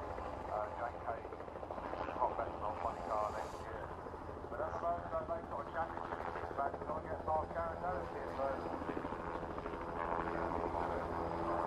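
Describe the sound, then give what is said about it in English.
A helicopter doing pleasure flights comes in to land at a racing event, with a steady low rotor thrum and engine roar that carries on throughout under mixed voices. “Helicopter coming to land just behind us, doing pleasure flights.”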